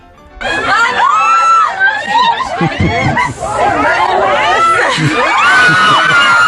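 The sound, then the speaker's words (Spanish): Bus passengers scream and shout in panic at a mouse. Many high, overlapping shrieks and excited voices stay loud almost continuously after a quiet start, with crowd chatter mixed in. “A medida que se va acercando el ratón a tu asiento, la gente va enloqueciendo, gritando, se desata el pánico en ese autobús.”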